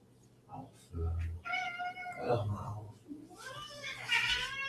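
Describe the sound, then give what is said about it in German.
A tomcat meows several times, drawn-out, harmonically rich cries of varying pitch, with a person's voice heard between and alongside them. “ich muss jetzt hier mal nach dem Kater gucken”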